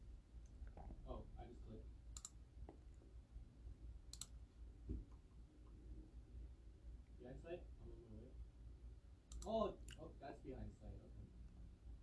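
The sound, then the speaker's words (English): Computer keyboard typing during a class test, a few sharp isolated key clicks scattered among soft tapping, heard faintly under ongoing casual conversation between young people. “Can I just put? I'm just gonna like type in Lily.”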